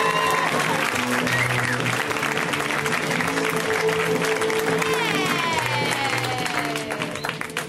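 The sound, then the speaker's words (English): Dense, continuous clapping from a stand-up comedy audience welcoming a comedian to the stage, loud and steady throughout before easing slightly at the end. “let's hear it right now for Amber Nelson. Give it up for her. Come on. Go nuts.”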